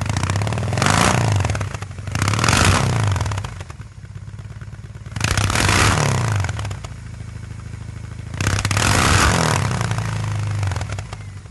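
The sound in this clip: A BMW R18 boxer motorcycle engine revs in four loud swells, each rising from a deep idling rumble and falling back to it, with a clattering, crackling edge and no voices.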